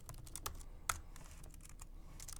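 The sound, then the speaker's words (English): JavaScript being typed into a browser console on a computer keyboard, heard as quiet, rapid, irregular key clicks with one sharper keystroke standing out midway. “And we have a console, a JavaScript console, so we can type a little bit of JavaScript directly.”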